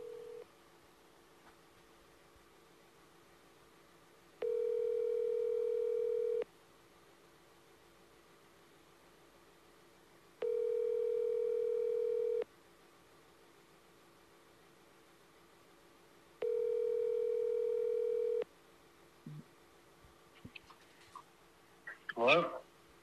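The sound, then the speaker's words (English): Three long ringback tones from a phone call placed on speakerphone, each about two seconds with even gaps between, steady and mid-pitched, followed by brief rustling at the end. “And then if you get voicemail, I'll call him on speaker and we'll just keep doing it back and forth.”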